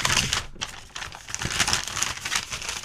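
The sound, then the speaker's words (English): Folded papers being unfolded and handled give a continuous, fairly faint crinkling rustle with small crackles and brief pauses, and no talk. “You fold the papers up and put them in your front jean pocket, too? I thought I was the only one. No, it's the only way to carry important documents.”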